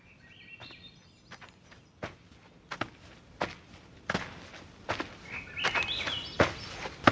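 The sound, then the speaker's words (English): Footsteps of a lone walker on a journey, steady and irregular, with many distinct treads, a few louder than the rest. Bird chirps come in brief bursts near the start and again later. “And I'm walking again. What a delight. Every step brings me closer to Beethoven.”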